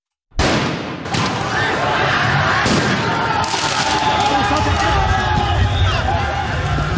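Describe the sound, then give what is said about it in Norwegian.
Football rioting in France after Paris Saint-Germain won the Champions League: a loud, dense crowd din with sharp bangs like fireworks or gunfire, a hard crack near the start, then continuous chaotic noise throughout. “Dette er lyden av omfattende fotballbråk i Frankrike i går kveld og i natt.”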